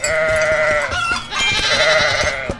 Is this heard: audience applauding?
no